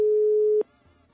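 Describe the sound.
A single steady telephone line tone sounds during a call. It holds at one mid pitch for just over half a second, then cuts off abruptly into near silence.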